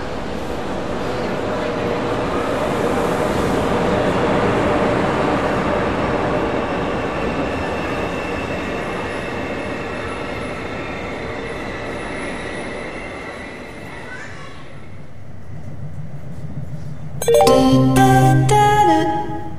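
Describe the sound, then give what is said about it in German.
A TGV high-speed train pulls into a platform at Zürich main station, bound for Mulhouse and Strasbourg. A long, broad rolling rumble with wheel noise swells and then eases, and a brief harmonic tone sounds near the end. “Gleis 8, Sektoren C und D, Einfahrt des DGW von Zürich Hauptbahnhof nach Mühlhausen, Straßburg”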